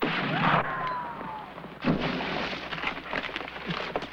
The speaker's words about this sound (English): It's the last instruction he'll ever follow as he falls into the mud, shot by a sniper.